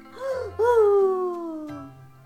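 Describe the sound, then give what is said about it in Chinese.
A voice imitates a little pony crying loudly. A short wail is followed by a longer, drawn-out cry that slowly falls in pitch. “他大声地哭了起来。”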